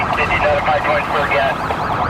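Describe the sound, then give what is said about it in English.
A police car siren screams during a high-speed pursuit of a fleeing SUV, its wavering, warbling tones sounding loud and continuous throughout. “Tim's lights are flashing and his sirens are screaming, warning motorists ahead.”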